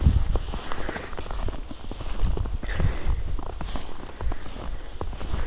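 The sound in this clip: Footsteps crunch through snow on a walk at the end of the day, many steady, muffled, crunchy steps at an even walking pace continuing throughout.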